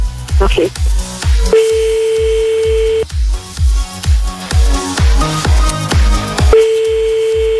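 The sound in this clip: A telephone ringback tone sounds as a call is placed to a listener: two long, steady, mid-pitched beeps about five seconds apart, running under loud, thumping, beat-driven music.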